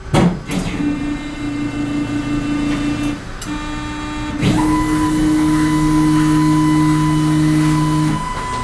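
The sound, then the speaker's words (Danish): A bone density scanner's arm moves into position over a patient lying on a padded table, giving a loud, steady mechanical motor whine. The whine shifts pitch a few times and holds in a buzzing drone before stopping near the end. “Nu starter jeg lige scanneren med at gå i position herovre fra.”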